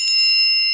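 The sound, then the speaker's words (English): A debate timer's warning tone: one bright, high bell-like ding rings evenly alone for under a second. “You will get a warning tone at 5 minutes. It will sound something like this.”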